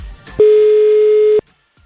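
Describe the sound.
A telephone tone from an outgoing call holds as one steady, pure, mid-pitched beep for about a second, loud and alone, with faint clicks just before it.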